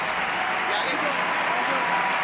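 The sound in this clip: Football stadium crowd in Oslo giving an ovation as Alexia Putellas leaves the pitch, a broad, steady roar of applause and crowd noise that holds level throughout.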